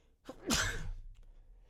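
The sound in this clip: A single sneeze, a short sharp intake followed by a breathy, explosive burst that trails off quickly, fairly faint and heard alone.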